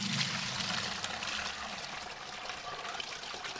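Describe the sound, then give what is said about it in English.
Liquid pours steadily as a plant dye infusion is transferred into a separate container and strained of old plant matter, a continuous splashing trickle that runs without a break and without talk. “once the infusion is complete, then I'll transfer that into its own separate container and filter out all of the old plant matter.”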